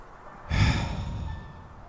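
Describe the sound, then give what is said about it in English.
One deep human exhale, a breathy rush that starts abruptly at moderate loudness and then trails off softly over more than a second. “Let's exhale.”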